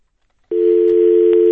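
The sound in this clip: A telephone line tone sounds as an incoming call connects: after a short silence, a loud, steady single-pitched tone starts abruptly and holds unbroken, with no voices.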